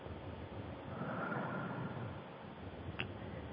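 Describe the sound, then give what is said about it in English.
A person with a tight chest takes a deep breath and blows out, a single long, faint airy rush that swells and then slowly eases, with no speech. “I want you to take some deep breaths and blow out and let me know how that feels.”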